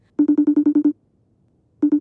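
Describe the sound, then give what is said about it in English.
A phone rings for an incoming video call: a rapid burst of about eight bright, evenly spaced electronic tones, a short silence, then the same pattern starting again, loud and alone. “The kids gathered around the phone as their aunt video called their Baba.”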